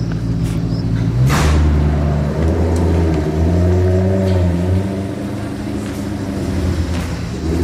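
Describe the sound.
Cars drive away along a seafront boulevard, producing a loud, continuous low engine rumble. The drone's pitch shifts and wavers as the vehicles pull off and recede, and traffic noise persists throughout.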